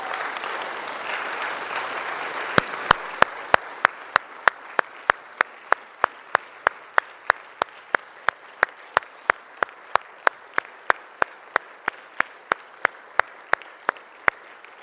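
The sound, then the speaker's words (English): Applause from the audience at a church service starts as a broad wash of many hands for a few seconds and then fades. A steady run of evenly spaced single sharp claps carries on alone after it. “Let's give a saint of God a round of applause.”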